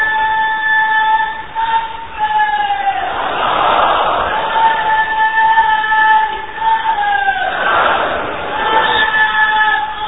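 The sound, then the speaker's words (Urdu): A crowd at a weekly religious gathering loudly chants Insha'Allah in unison, with two strong surges of massed voices rising over a steady background of crowd sound. “تو ان مدنی پھولوں پر عمل کرنے کی نیت سے زوردار انشاءاللہ کا نعرہ لگا دیں انشاءاللہ.”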